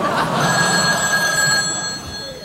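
A telephone rings with a continuous, steady electronic tone over dense background noise, easing slightly toward the end.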